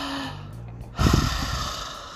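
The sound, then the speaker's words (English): A deep breath is drawn as a loud, airy rush that begins about a second in and carries on to the end, following a quieter stretch with faint sustained tones. “So now let's take some breaths. Let's take some deep breaths.”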